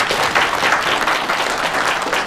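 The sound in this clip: Applause from an audience at a public presentation of an old-street guesthouse project: dense, steady clapping throughout with no breaks, fairly loud, with no clear speech over it.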